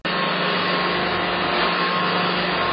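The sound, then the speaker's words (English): A vacuum cleaner runs steadily throughout, a loud, constant whooshing roar with a low motor hum underneath and no speech. “I am vacuuming here?”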